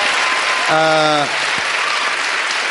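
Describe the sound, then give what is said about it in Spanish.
Steady, loud applause from the studio audience of a Spanish talk show continues throughout, with a short voice rising briefly over the clapping. “Qué público más entregado, ¿no? Sí, sí, sí. Es que es un público muy listo, no es sí, porque sí, estén delante, pero sabe muy bien de que tienen que aplaudir.”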